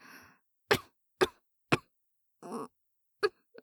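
Coughing and choking on a strong smell. A series of short, sharp coughs and raspy throat-clearing bursts comes at fairly even intervals, loud and alone with no talk.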